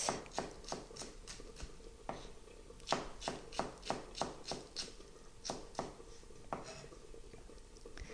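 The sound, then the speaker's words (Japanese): Crisp knife strikes on a cutting board as a vegetable, cut into 5 cm lengths and halved, is sliced into thin julienne strips, with many sharp taps at a steady, slightly irregular pace. “5センチぐらいの幅に筒切りにして、それから縦半分に切ります。そしてそれを端から千切りにしていきます。”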